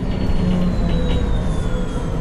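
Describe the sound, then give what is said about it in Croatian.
Loud, steady rumble of a train arriving at its last stop, Ilijaš, with thin high tones ringing faintly above the continuous rail noise. “Evo mislim da stižem. To je to Ilijaš, jel, zadnja stanica.”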